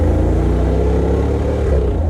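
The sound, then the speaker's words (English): A Jeep engine on 37-inch tires revs hard under acceleration in a loud, steady, throaty rumble that holds without a break. “That's crazy from a Jeep. It sounds so awesome.”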